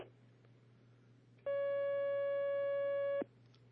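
A steady telephone line tone sounds as an incoming call connects to a phone-in religious question line, holding a single unbroken pitch for just under two seconds over a faint low hum.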